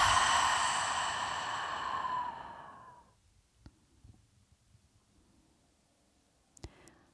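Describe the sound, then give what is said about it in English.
A long, voiced exhale sigh during a relaxation breathing exercise, steady and fairly loud at first, then fading away over about three seconds, followed by quiet with a few faint small clicks. “Once again, nice deep breath in. Exhale, let your day go.”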